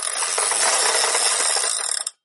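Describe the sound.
A prize wheel spins with a rapid, continuous stream of ratcheting clicks that grow sparser near the end before stopping abruptly.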